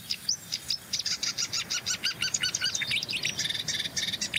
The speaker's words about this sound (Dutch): Koolmees. Merel weer. Koolmees en een uitgevlogen jong van een koolmees.